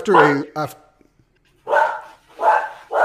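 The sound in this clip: A man imitates a dog barking in gruff, throaty bursts, with several short woofs separated by brief silences.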